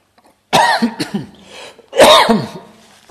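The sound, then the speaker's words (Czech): Harsh coughing from someone choking for a moment, in two loud bursts of rapid coughs separated by a quieter gap, with another cough starting at the very end. “Opět jsem se málo dusil, pardon.”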